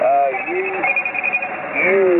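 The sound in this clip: A phone ringing with a Google service alert, a loud warbling electronic ringtone with gliding tones in two short phrases separated by a brief wavering stretch.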